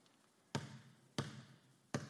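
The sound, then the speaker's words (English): A ball dribbled like a basketball, three sharp, fairly quiet thuds at a steady pace that slows slightly. Each thud has a short, hollow ringing decay, with no talk. “I'm terrible at basketball. All right. Dribble.”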